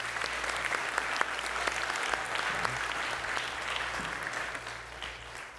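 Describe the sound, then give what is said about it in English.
Steady applause from a crowd for a family just baptized, continuous clapping at a moderate level throughout, with no one speaking. “So let's give them a round of applause.”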